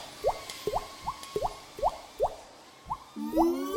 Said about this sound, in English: Now, I need to go and find a bucket and stop this leak before the whole workshop floods.